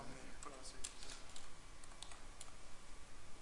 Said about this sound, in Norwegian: Så jeg for eksempel klikker på en Maple-fil da